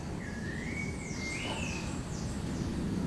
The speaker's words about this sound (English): I take comfort in the singing of the birds.